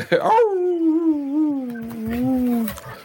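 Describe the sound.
A dog whimpers into a drawn-out howl: one long, wavering, tonal cry that starts higher, settles lower and sinks a little more before it stops.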